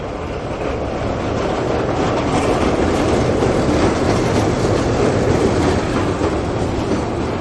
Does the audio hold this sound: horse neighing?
no